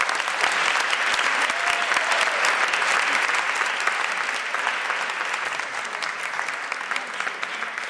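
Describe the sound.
Dense, steady audience applause welcomes two authors at a book event, holding strong throughout and easing slightly toward the end.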